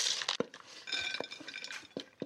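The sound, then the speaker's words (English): A utensil lightly clinks against a bowl while eggs are stirred through paprika mayo, giving several soft, irregular taps and scrapes that stay faint throughout. “So we'll pour it right over the top and I'll stir it around and get them nice and evenly”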